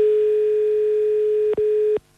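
Telephone tone on a call to a number: a steady, continuous mid-pitched hum lasting about a second and a half, briefly interrupted once, then resuming before stopping abruptly.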